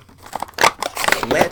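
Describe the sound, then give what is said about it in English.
Scissors snip through a cardboard file card on the back of an action figure's toy packaging, giving a few crisp, crinkly cuts and rustles of stiff card. “Let's cut the file card off the back.”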